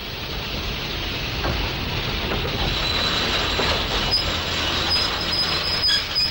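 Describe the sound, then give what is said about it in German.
A train passes just beneath a raised window in London, its carriage roofs about a meter below. A continuous loud rumble and clatter carries bright, high wheel squeals toward the end, with no voices. “Da kommt ja schon ein Zug.”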